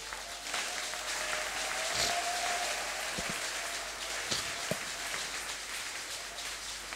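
A church audience applauds in a steady, dense patter of many hands that stays fairly faint and even for about seven seconds, with a few brief louder thumps partway through.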